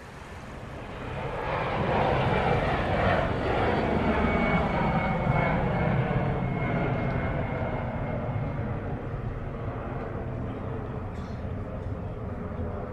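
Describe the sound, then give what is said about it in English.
Aircraft at Shannon Airport in Clare: a broad, heavy engine roar swells over the first two seconds, then holds loud and steady before slowly easing toward the end. “We leave as we arrived at Shannon Airport, gateway from Clare to the world and back.”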